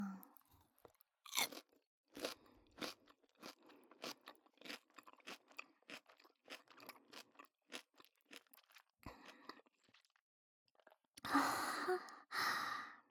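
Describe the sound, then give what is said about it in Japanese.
Crunchy chewing of food: many crisp, irregular bites and mouth crunches follow one another steadily, with no talk, ending in a louder, breathy exhale. “ほら、ご主人様も食べて食べて、おいしいよ”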